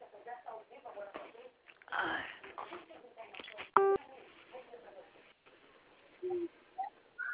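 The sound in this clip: A single short telephone keypad tone from pressing zero on a phone call, sounding once midway, with a recorded voice speaking before and after it.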